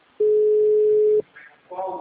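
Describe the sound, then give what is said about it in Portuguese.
A phone call's ringing tone sounds as one steady, loud beep lasting about a second, followed by a short pause before a voice begins. “tô ligando pro Mário agora. Atende aí, Mário.”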